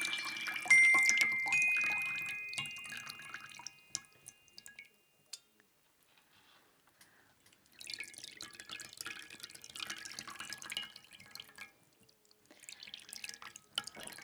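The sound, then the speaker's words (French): Spring water dripping, with many drips falling in two bursts separated by a near-silent stretch, the first burst fuller and carrying a faint ringing tone. “on s'achève sur cette émission, sur cette note d'eau de source”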